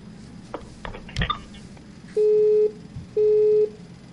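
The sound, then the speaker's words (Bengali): Telephone busy tone after a disconnected call: two long, steady, mid-pitched beeps separated by a short gap, following a few faint clicks. “সংযোগটি বিচ্ছিন্ন হয়ে গিয়েছে, আপনি আরেকবার চেষ্টা করুন।”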